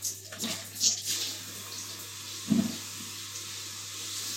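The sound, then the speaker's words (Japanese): Water splashes in a bath while someone washes their body, a few brief splashes and drips rising out of a constant soft hiss of water. “体を洗っていきたいと思います。”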